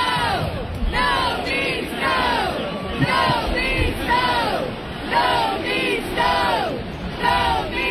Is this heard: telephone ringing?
no